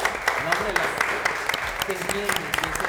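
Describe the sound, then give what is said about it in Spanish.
Audience applause at the close of a show, a steady wash of many hands clapping that runs under a host's speaking voice throughout. “Muchísimas gracias tanto a nuestro público, un fuerte aplauso al público que”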